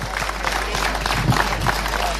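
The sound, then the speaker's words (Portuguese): An audience claps in dense, steady applause after a municipal council president is introduced at a public event. The clapping is loud and continuous for the whole brief clip. “professor doutor Jorge Ferreira, Presidente da Câmara Municipal de Gouveia, para quem peço uma enorme salva de palmas”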